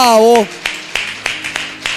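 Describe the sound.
A church audience claps in a steady, even rhythm of sharp hand claps after a brief voice at the start.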